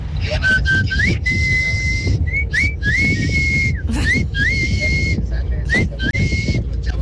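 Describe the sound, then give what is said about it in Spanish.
A person whistles a family call passed down from father to children: a clear, high whistle repeated in several phrases, each opening with an upward slide into a held tone, over faint background noise. “Mi papá, bueno, siempre nos chiflaba así. Y bueno, yo también seguí la tradición con mis hijos.”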